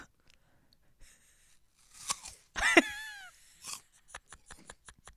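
Crunchy chewing from a person eating in an ASMR-style recording: irregular crisp bites and crunches, then a quick run of many sharp crunches near the end, with a brief tonal squeal in the middle.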